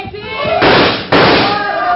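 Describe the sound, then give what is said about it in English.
Rifle shots at a charging elephant in a radio drama: two loud, rough blasts in quick succession, each with a short noisy tail. “Yes, thanks to you and your rifle. I hated to shoot Takru, but I had no choice. Another 10 feet, and he'd have trampled me.”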